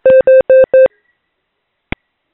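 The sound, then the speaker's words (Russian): A telephone rings as four evenly spaced, loud electronic beeps at one steady pitch, then a single brief click after a pause. “Телефон.”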